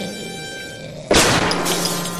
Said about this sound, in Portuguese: Derrubei minha arma